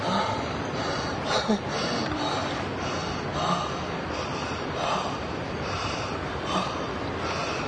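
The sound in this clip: Heavy, ragged breathing from a tired man who is out of breath on reaching a village house, with breathy gasps and snorting exhales repeating unevenly over steady background noise.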